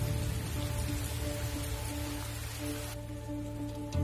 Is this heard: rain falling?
yes